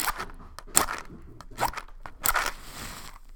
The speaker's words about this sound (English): But first, let's do a little smoke cleansing and pull a card. Okay, we're going to use a little rosemary.